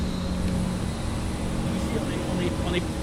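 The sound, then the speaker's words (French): Milling machines cutting a block of material in an Alpine F1 Team workshop give off a steady, loud mechanical drone with a constant low hum. A voice speaks over it toward the end. “Ce sont des fraiseuses.”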